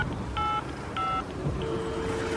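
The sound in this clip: Telephone keypad tones as a number is dialled: two short, steady electronic beeps, then a longer, lower sustained tone.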